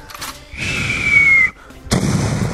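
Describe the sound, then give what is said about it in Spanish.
Video game gunfire from a player armed with a bazooka: a rushing blast carrying a steady, slowly falling whistle, cut off abruptly, then followed by another loud, harsh burst. “Ya empezó a tirar los tiros.”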